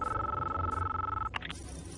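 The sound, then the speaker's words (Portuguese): Telephone ringing in the closing scene of The Matrix film: a steady electronic ring tone holds for over a second, then breaks into a few short, choppy bursts. “E aí termina o filme com ele justamente fazendo uma ligação diretamente para a Matrix, afirmando tudo isso, né?”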